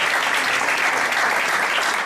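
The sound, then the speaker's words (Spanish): Audience applause at a public football-related event honoring a former national team player: a dense, steady wash of clapping that holds evenly for about two seconds, with no voices. “Un aplauso para una institución de la selección de la vida.”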